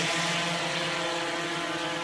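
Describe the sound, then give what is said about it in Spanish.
A drone lifts off carrying a donor kidney on a University of Maryland delivery flight. Its rotors make a loud, steady buzzing hum with layered tonal overtones, and no voices are heard. “Y así salía el dron, Marta. ¡Qué maravilla! El proyecto lo ha liderado la Universidad de Maryland. El primer viaje del dron con un riñón duró apenas 5 minutos”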